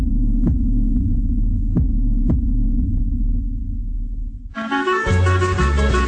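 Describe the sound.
A heartbeat sound effect: a few dull, low thumps over a steady, deep throbbing hum. Music cuts in abruptly near the end.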